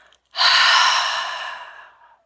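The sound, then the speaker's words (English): A single long exhale during a guided breathing exercise, a breathy rush of air that starts abruptly, holds steady and then tapers away. “One more time. Inhale. Through your body, down to your toes, out to your fingers, and exhale.”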